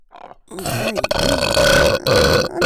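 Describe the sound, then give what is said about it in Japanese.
One long, loud, gravelly burp lasts about two seconds, its voiced tone wavering and rumbling throughout with no other sound beside it. “ゲップエロすぎ、エロすぎ”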